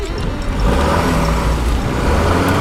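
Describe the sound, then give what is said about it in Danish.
A car's engine rumbling as it pulls away at night, a steady loud low drone with broad road noise and no clear breaks. “Han træder på speederen og kører ud i natten.”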